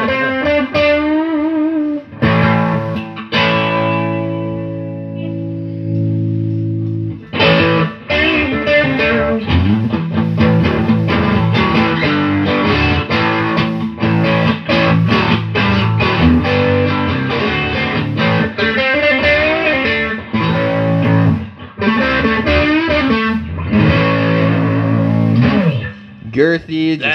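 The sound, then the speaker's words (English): Electric guitar through a distortion pedal, with a cranked-up Marshall amp tone: loud, dense, saturated chords and riffs played almost continuously, broken only by brief gaps. “Yeah, it sounds like a cranked up Marshall, man. I dig it. I don't use that pedal enough, but being honest with you, I really need to because it sounds rad.”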